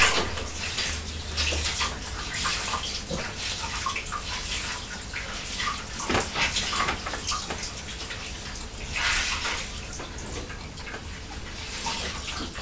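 Running water from a tap as a blue cloth is rinsed after wiping a table. A steady, loud, hissing rush continues throughout, with a few brief splashy surges and no talk.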